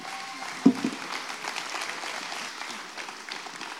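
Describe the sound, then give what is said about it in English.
Applause from a church audience welcoming a guest speaker: dense, continuous clapping from many hands, fairly soft and even throughout, with one brief sharper burst near the start. “can we put our hands together and welcome our guest speaker today”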